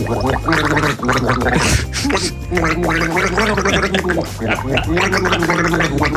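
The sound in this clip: Someone gargles a pop song melody, producing a continuous wet, bubbling gurgle whose pitch shifts up and down in a tune-like pattern throughout.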